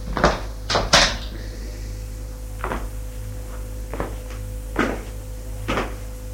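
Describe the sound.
A cupboard is opened while someone searches under the sheets inside, giving a series of sharp wooden knocks and clicks, several close together at first and then spaced out, over a steady low hum.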